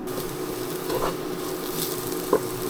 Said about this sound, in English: We'll just keep her cooking. Keep her cooking until she crisps.